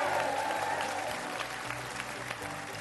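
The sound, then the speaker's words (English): Studio audience applause on a stage studio inside a museum in Pensacola's historic village: a full crowd claps in a dense, sustained wash that eases slightly toward the end. “What a great audience. Give yourselves a big hand.”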